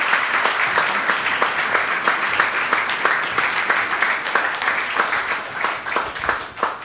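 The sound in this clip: An audience applauds the speakers after a panel conversation with educators. The clapping is lively and continuous, with individual sharp claps standing out.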